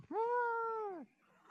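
A single cat meow, clear and tonal, holding a steady pitch for about a second before dropping slightly at the end. It is heard alone, with no voices over it.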